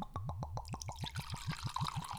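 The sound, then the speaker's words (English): Single malt 12-year whisky glugs out of the neck of a bottle as it is poured: a quiet, rapid, steady train of many hollow gulping pops, with a splashing trickle of liquid building beneath. “Did you notice I started glugging before liquid even came out of it? It was just glugging past the neck. Like, and no liquid was coming out yet.”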